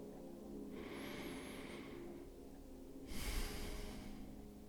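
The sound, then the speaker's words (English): A deep breath: two long, airy rushes of breath, the second slightly louder and more forceful, with no talking. “All right, here's our deep breath.”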